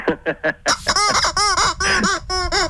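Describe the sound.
A toy chicken squawks and clucks in a rapid series of harmonic, squeaky bursts. Three short calls come first, then a run of longer, louder clucks.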